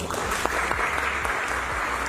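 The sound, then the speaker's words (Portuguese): Applause from an audience welcoming a presenter to the stage at a business pitch event, a steady, dense clatter of many hands clapping for the full two seconds. “Seja bem-vindo, palmas pro Bruno.”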